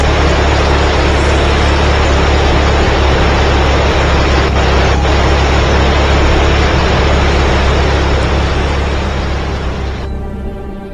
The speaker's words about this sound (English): The engines are rough idling. The thing is coughing.